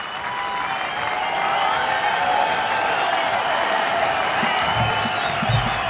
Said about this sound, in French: Le public de la Côte d'Azur en redemande, comme vous pouvez l'entendre.